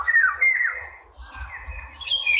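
Birdsong from a bird that flies between poplar trees: bright, warbling, high chirps in flowing phrases that rise and fall in pitch, with a soft low rumble underneath throughout.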